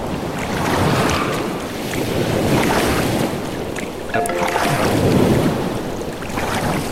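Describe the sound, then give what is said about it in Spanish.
Oars rowing a boat through deep ocean water in a video game, heard as broad, surging washes of water that swell and ebb in repeated strokes over a steady wind-like hiss, with no talking. “si pulsan la T van a empezar a remar. Escuchen. Vamos remando. Estamos remando.”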